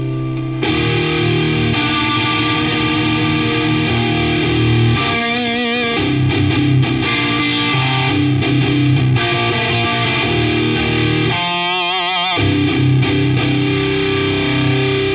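Saturated, heavily distorted electric guitar tone from a tri-mixer blend. After a brief silence it plays loud, dense chords and riffs continuously, with a couple of wavering vibrato notes, and no other sounds.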